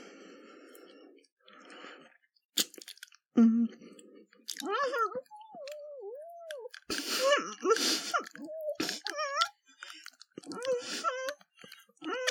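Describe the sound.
A person chewing food, with wet clicks and crunchy bites mixed among moaning, whining vocal sounds and bits of talk, coming in irregular bursts with short pauses.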